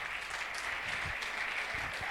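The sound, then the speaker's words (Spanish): A church audience applauding during a sermon: a faint, steady wash of many hands clapping at once that runs evenly through the whole clip, with a few soft low thumps beneath. “no sé quién le da un aplauso a Dios.”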